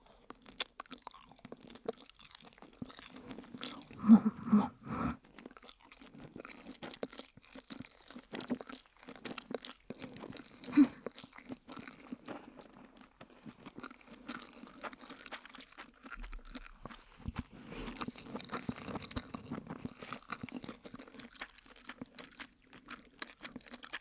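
Food being bitten and chewed, with many irregular crunches and wet mouth sounds in an uneven rhythm. Some bursts are louder, and no talk is heard.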